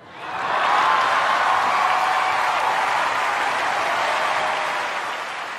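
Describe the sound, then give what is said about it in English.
Applause from an awards-show audience giving Kanye West a standing ovation. A dense, continuous roar of clapping swells in within the first second, holds loud and even, then eases slightly at the close. “What you can't see here is the audience giving Kanye West a standing ovation, because Kanye at this time was still the new kid on the block”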